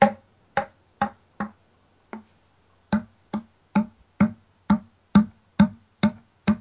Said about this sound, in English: and then I'm tapping the end of the call in the palm of my hand and getting a sound like this.